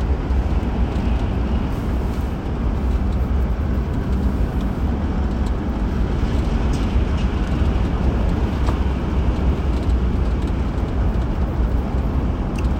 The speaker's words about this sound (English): sorry for the silence. I was driving down the highway